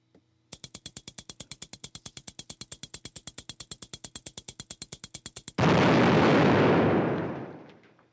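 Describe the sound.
Firecracker sound effect: a long, rapid string of many evenly spaced sharp pops, followed by a loud, sustained roaring blast that slowly fades away. No voices are heard.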